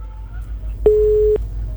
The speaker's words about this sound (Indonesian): Ya, kok terputus sih?